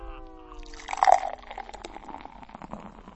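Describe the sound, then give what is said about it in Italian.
Beer poured into a glass, with soft gurgling liquid that turns into a fizzy, crackling foam, quiet and continuous. “Fa una schiuma però questa birra.”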